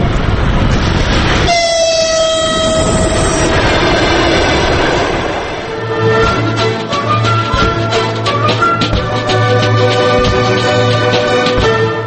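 A train moves along the railway: a long, loud horn blast sounds early on, then gives way to a steady, rhythmic clatter of wheels over rail joints beneath a low rumble.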